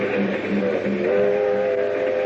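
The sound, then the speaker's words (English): A passenger train travelling on rails on its way to Miami gives a steady, even rumble with a held tonal hum running through it, loud and unbroken from start to finish. “But meanwhile, on a train to Miami...”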